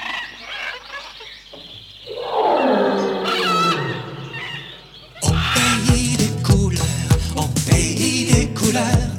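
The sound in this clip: A lion gives a long, rough roar that sweeps downward in pitch, followed by a louder, busier stretch of sharp, clattering bursts.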